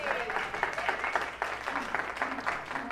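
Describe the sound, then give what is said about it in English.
A church audience claps in a standing ovation honoring a pastor's 32 years of service. The dense, sustained applause has voices mixed in throughout. “Let's just honor them. Yeah. Yeah. A standing ovation is appropriate.”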